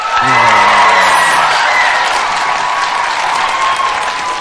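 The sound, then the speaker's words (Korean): An audience bursts into applause, dense steady clapping with a few cheers and whoops at the start, loud and continuous throughout. “박수 막 나올 때 어떠셨어요, 느낌이?”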